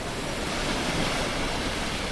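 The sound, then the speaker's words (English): Rough sea waves off the Falklands as bad weather closes in, a dense, steady roar of surf and wind-driven water with no break or clear individual crash. “The sea becomes rougher as bad weather closes in.”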